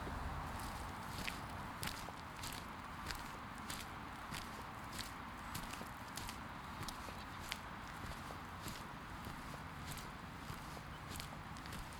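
Footsteps walking through a cemetery, a faint, steady series of many light, regular steps over a constant soft background hiss.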